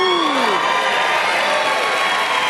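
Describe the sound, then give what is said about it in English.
Loud studio audience applause and cheering for a radiation oncology nurse contestant at a quiz show, a dense and continuous roar of clapping mixed with shouts that holds steady throughout. “That's actually the biggest clap I've ever seen for a single profession in the history of this show.”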